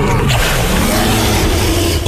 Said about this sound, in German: Okay, das war jetzt aber kein Löwe. Papa, das sind doch die Dinos im Zoo Osnabrück. Die sind da überall.